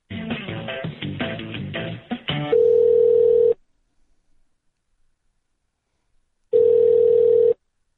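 A telephone line rings as a call to a hurricane hotline is transferred: a short burst of hold music gives way to two long, steady ring tones separated by a few seconds of silence.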